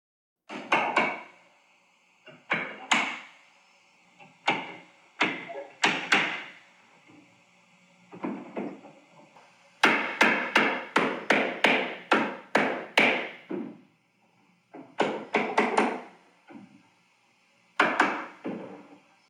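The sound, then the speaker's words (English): Roofers hammering on a roof early on a Saturday morning: loud, sharp wooden blows in irregular bursts, some rapid runs of strikes and some spaced singly, separated by brief pauses, with no voices. “Like, why the fuck are they working on the roof”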